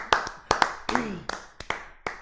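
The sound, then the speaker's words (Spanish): Scattered, irregular hand claps come from a small group, about nine sharp distinct claps spread unevenly over two seconds, with a brief voice heard between them. “Aplaudamos antes de nombrarlo.”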